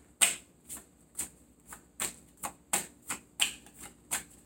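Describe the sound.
Tarot cards are shuffled and drawn, giving a quick series of about nine crisp, papery snaps at a fairly steady rhythm, each short and sharp, with faint hiss between them and no talking.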